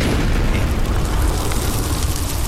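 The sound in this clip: A bomb explosion in a tabletop fantasy game comes as a loud, sustained, roaring blast. Dense rumbling noise holds steady through the whole stretch, with no separate bangs.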